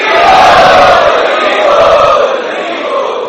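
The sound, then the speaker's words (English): A crowd chants loudly in unison to welcome guests at a youth festival: a dense, sustained roar of many voices that holds strong for about three seconds and tapers slightly at the end. “So let us welcome all these wonderful guests to our Prerna Festival by three times loudly chanting.”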